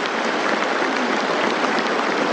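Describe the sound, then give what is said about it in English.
Applause from a large crowd clapping at its leadership in a long ovation: a dense, steady wash of many hands that keeps going at an even loudness throughout, with no voices. “They're still clapping, going on and on and on.”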